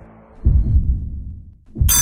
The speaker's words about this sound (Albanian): E dëgjove? Jo, nuk është zilja e shkollës, është zilja e ofertave në Casa Italia.